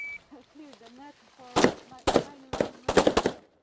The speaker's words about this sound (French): Au fond du terrain vague, une dizaine de soldats s'entraînent au tir avec des fusils.